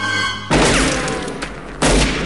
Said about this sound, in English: Harry fires, hitting the wooden fence in front of Scorpio, who returns fire and scuttles away. Harry fires again, but in vain.